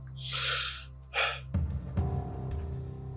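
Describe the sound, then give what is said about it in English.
An irritated man takes a sharp, airy gasp, followed a moment later by a second shorter breath. Quieter, low background sound follows. “he takes a breath.”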